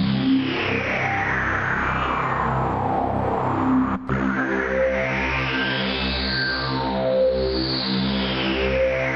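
Opening of an atmospheric music theme from the video game Metroid Prime: sustained, droning synth tones with gliding, sweeping overtones, steady and fairly loud throughout, with a brief dip near the middle and no voices.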